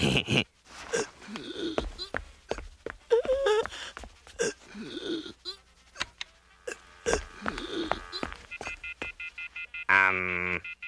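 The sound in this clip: Telephone keypad tone as someone dials an emergency number, one brief bright electronic beep near the end, after stretches of animated voices, snickering and whimpering.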